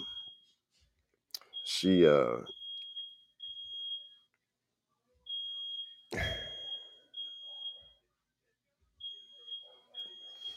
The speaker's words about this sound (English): Is that your fire alarm?